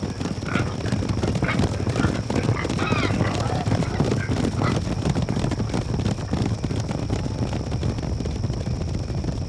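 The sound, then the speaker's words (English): Creatures back on all fours charge at full gallop toward a town, a dense, rapid drumming of hoofbeats that runs continuously over a steady wind-like rush, with no pauses. “until suddenly, the creatures fall forward, back on all fours, and charge in full gallop, as they once did.”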